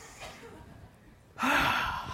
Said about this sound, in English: the first thing you should do is take three big deep breaths. So I'm going to just do that and take,